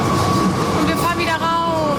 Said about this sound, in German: Wir fahren zum ersten Mal in der Brüsseler Straßenbahn.